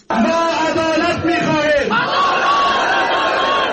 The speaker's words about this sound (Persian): صدها تن از هواداران ده ها نامزد معترض ولسی جرگه هرات در مقابل ساختمان این ولایت برای چندین ساعت دست به تجمع اعتراضی زدند.